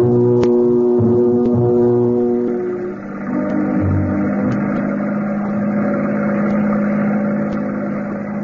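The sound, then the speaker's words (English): A speedboat's engine drones as it comes alongside a gambling ship anchored offshore: a steady, low, humming tone layered with harmonics. It dips briefly in loudness partway through, then carries on evenly, with no voices. “The speedboat slows down and then glides gently in alongside the gambling ship.”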